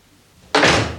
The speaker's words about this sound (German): Frage: Was tut sie da? Sie macht die Tür zu.